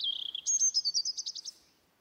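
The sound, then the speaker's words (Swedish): Bird calling at a wetland: a high whistled note followed by a quick run of many rapid chirps that fade away, heard alone with no talk. “Fåglar, grodor och fiskar lever på platsen som bara för några år sedan inte fanns.”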